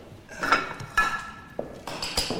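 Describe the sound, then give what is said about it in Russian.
Dishes and cutlery clinking as tea is poured into a cup and porridge is served onto a plate: a few sharp, light clinks spaced apart with soft handling noise between. “Стас берет чайник. Наливает в чашку чай. Накладывает себе кашу.”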